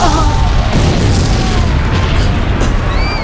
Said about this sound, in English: The impact of the bomb took me off my feet.